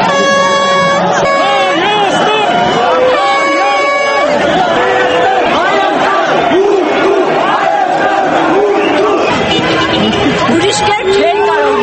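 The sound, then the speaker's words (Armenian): Football fans celebrate in the streets of Yerevan at night, chanting and whistling amid loud, dense crowd noise while car horns blare in long sustained blasts, the whole din continuous and unbroken. “երևանյան մի քանի գիշերներ խլացրեցին երկրպագուների վանկարկումները, սուլոցները, ավտոմեքենաների ազդանշանները”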